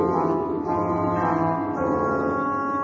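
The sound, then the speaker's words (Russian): Church bells ringing for Lent over misty Moscow streets: slow, heavy, sustained tolling with a dense, layered ringing hum that stays loud and steady throughout. “Звонари лезли на колокольни. Медленно, тяжело плыл над мглистыми улицами великопостный звон.”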